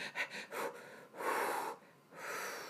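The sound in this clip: A person imitates heavy, laboured breathing from shortness of breath: a few quick rasping gasps, followed by two long, wheezy, drawn-out breaths.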